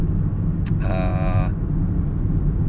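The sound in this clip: A car is being driven home, its engine and road noise a loud, steady low rumble. A brief high electronic tone sounds partway through.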